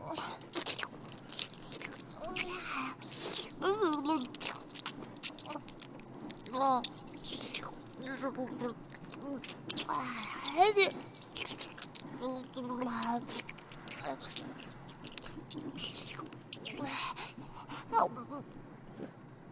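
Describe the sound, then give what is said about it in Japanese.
Wet kissing sounds from an older woman forcefully parting a young man's lips, tongues entwining, with many soft smacks, slurps and breathy gasps in an uneven rhythm at a fairly quiet level. “お姉さんの唇が、僕の唇を強引なくらいに強く割り開いて、舌先が絡みついてくる。”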